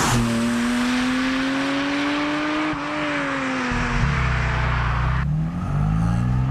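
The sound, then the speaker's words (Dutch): Turbocharged, track-focused but road-legal car driving off calmly: a steady engine drone that drops to a deeper rumble partway through, then climbs slightly in pitch near the end. “Nou, we rijden rustig weg.”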